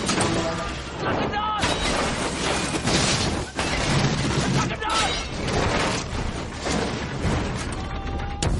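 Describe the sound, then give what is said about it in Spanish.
Many catapults fire and their projectiles strike a city wall in a 2005 medieval film battle. Dense, continuous crashing and booming rumble the whole way through, with a voice speaking over the din. “Los musulmanes disparan multitud de catapultas.”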